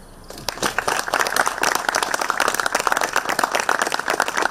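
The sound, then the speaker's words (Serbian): Audience applause after a speech at a cultural event. Dense, continuous clapping swells in after a brief quieter opening and stays steady and full until the end. “Pa to je već velika stvar za jedan aplauz.”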